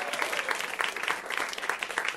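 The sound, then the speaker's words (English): Applause from a comedy club audience at UCB on a Tuesday night: dense, steady clapping that keeps an even level throughout, with no voices over it. “Put your hands together. Guys, thank you so much for coming out to the UCB on a Tuesday night. Let's hear it for you, audience.”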